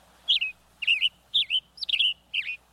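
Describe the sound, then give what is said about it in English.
Western tanager song: five short, burry, robin-like phrases of high chirping notes, evenly spaced with brief pauses between them, clear and alone over a quiet background. “The tanager's tune is as sharp as his brightly colored red head.”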